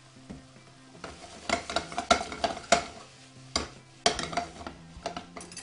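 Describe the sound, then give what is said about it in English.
Food dusted with chipotle garlic seasoning is turned in a frying pan with a spoon, giving a steady sizzle under irregular metallic scrapes and clinks, moderately loud, with no talk. “A little bit more of our chipotle garlic seasoning just right over the top because I'm going to give this one turn. Once we give it a turn, that's going to be it.”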